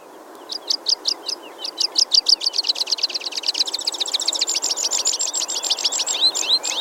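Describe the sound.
A pipit, a small passerine songbird, sings a long series of sharp, high notes. Spaced chirps quicken into a dense, rapid trill that keeps going to the end, heard alone over faint background hiss.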